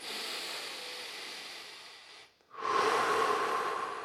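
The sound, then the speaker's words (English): Deep breathing during a guided breathwork session: a long, steady airy inhale, a brief pause, then a louder, fuller exhale that rushes out and carries on. “Each breath bringing the new vitality in into all the cells, and each exhalation letting go of tension.”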